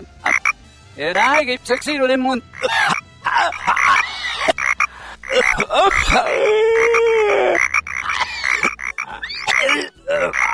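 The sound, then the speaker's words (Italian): Frog croaking, many loud calls in quick succession, varied in pitch, some short and buzzy and others drawn out with a wavering tone. “Ma questa, maestro, è una rana, un ranocchio. Guardi, questa è una rana, fa schifo.”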